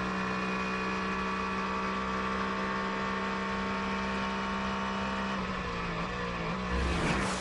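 GT race cars, one of them a BMW, pass during a race with a sustained high engine drone that holds steady, then swells briefly louder near the end.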